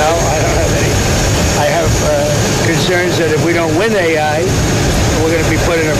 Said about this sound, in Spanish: No se escucha bien por el sonido del avión